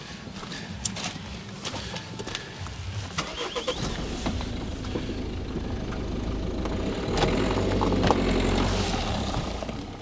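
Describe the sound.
A car drives on the way to a Christmas market in Meinerzhagen, its steady low engine and road rumble scattered with small clicks and knocks. The noise swells somewhat louder toward the end, with no talk.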